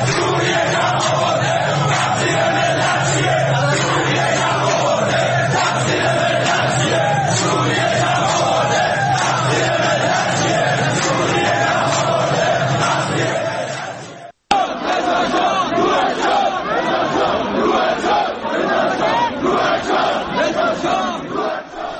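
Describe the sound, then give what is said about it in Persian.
A large crowd of protesters in Iran chants slogans over rising petrol prices, deepening poverty and the Islamic Republic's aid to militias. Loud, dense massed voices shout without pause, cut off briefly near the middle, then resume. “مردم میدن، بنزین گرون شده، فقیر فقیرتر شده، یا شعارهایی میدن علیه کمک‌های جمهوری اسلامی به گروه‌های شبه نظامی در فلسطین و لبنان یا خود حکومت سوریه.”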